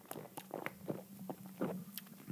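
Several soft gulps, each a short, muffled burst at an irregular pace, as someone swallows a drink over a faint, steady low hum.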